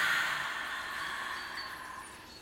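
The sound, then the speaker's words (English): A slow, deep breath taken through the nose and let out during a guided relaxation exercise, heard as a long, soft, airy hiss that stays steady and then gently fades, with no talk. “let's take a nice deep breath in. Breathe in through your nose. And release.”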